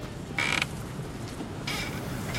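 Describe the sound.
A playground swing creaks in use, a few faint squeaky creaks in a slow back-and-forth rhythm over a quiet background.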